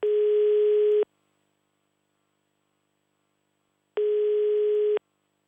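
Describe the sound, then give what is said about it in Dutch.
Telephone line tone heard while a call is placed: two steady, mid-low one-second tones separated by a long silent pause, with no voices. “We bellen even met de getroffenen en de betrokkenen natuurlijk in de buurt.”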